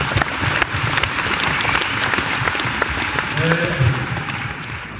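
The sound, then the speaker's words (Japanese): Dense, steady audience applause fills the whole stretch at a lively 1970s Japanese idol-group concert and stage show, with sustained clapping and no clear pause. “皆さんに拍手を差し上げください。”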